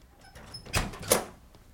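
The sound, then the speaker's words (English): A door being opened: two short, dull thuds about half a second apart, moderately loud against a quiet background. “Open the door!”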